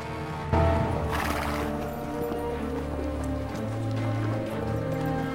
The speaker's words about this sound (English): Some distance behind them, Marion is riding a horse at full pelt.